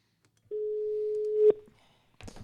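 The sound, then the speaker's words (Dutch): A telephone call rings out: one steady mid-pitched ringback tone holds for about a second and ends with a click. A brief rustle follows. “Nou, zullen we hem eens bellen?”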